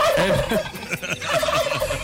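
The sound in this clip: Turkey gobbling, a loud, rapid, warbling run of gobbles that repeats many times with brief pauses, heard alone without talk.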